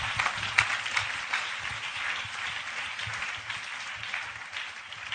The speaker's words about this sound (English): oh, you can clap those hands dear.